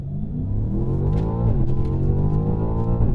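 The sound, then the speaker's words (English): Car engine accelerating from a traffic light, its pitch climbing steadily, dipping briefly near the middle as if shifting gear, then climbing again, moderately loud and without talk. “So go on, show us what the car can do. I just did. I mean, we're at a traffic light, so we can accelerate to the speed limit.”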